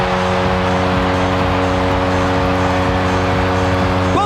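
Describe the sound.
Hockey arena crowd at SAP Center roars after a Sharks goal, a dense, loud, sustained cheer with a steady low horn-like drone running underneath throughout.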